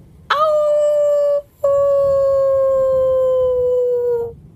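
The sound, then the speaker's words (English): A wolf howls in the distance near a conifer forest: two loud, sustained howls, the first brief with a quick rise and fall, the second long and slowly sinking in pitch before fading out. “the stoner thought they could hear a wolf howl in the distance.”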